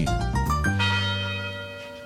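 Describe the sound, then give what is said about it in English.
Chimes ring from a university tower in Detroit: a few quick overlapping bell strikes, then one rich, sustained tone that slowly fades away, with no voices. “The University Tower chimes are ringing right up Livernois to the DeWitt House, where we are taping our last Ask the Professor of this year.”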